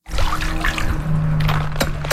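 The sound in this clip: Water sloshes and trickles steadily as a skimmer net is dipped methodically into a backyard swimming pool whose bottom is black with ash. The wash of liquid stays fairly loud and unbroken, with no talk.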